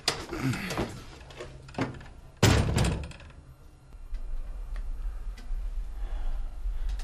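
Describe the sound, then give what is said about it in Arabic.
A door is pulled shut with a single heavy thud that stands out sharply, preceded by a few lighter clicks and followed by a quiet, steady background. “واغلق الباب أيضا.”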